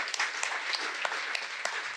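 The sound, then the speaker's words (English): Audience applause after a speaker's introduction: a steady, dense patter of many hands clapping, fairly soft overall, with a few individual claps popping out above the wash. “Give them a big round of applause, ladies and gentlemen.”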